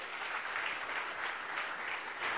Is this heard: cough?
no